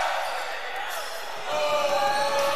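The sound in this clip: Basketball dribbled on a court during a game, its repeated bounces running under a commentator's voice.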